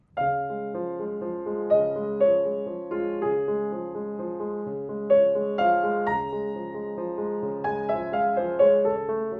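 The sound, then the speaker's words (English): A solo piano plays a romantic nocturne melody in D-flat over a plain, repetitive Alberti bass figure. Single melody notes ring clearly above the steady rolling broken-chord accompaniment at a calm, moderate pace. “If we take the great D-flat Nocturne Opus 27, number 2, and we put an Alberti bass under it, it might sound something like this.”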